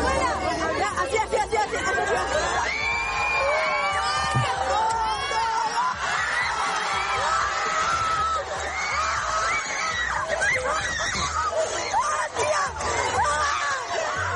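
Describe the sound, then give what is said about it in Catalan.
A live audience reacts with excited chatter, shouts and cheers from many voices at once, a continuous babble with higher yelps rising out of the crowd. “Atenció, perquè aquesta que escoltareu és la reacció del públic.”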